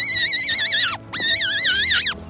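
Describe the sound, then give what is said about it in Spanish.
A hunter's deer call, blown through a squash leaf split down the middle to form a reed. It gives two long, loud, reedy blasts with a wavering pitch that drops away at the end of each. “Una hoja calabacera partiéndole por el centro y haciéndole la lengüeta para que pueda cantar como el ciervo.”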